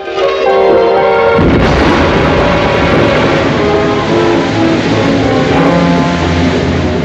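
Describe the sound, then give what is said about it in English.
An explosive blows up at a dam with a sudden, loud blast about a second in, then a dense, sustained roaring rumble that stays loud to the end. “A man throws an explosive at the dam.”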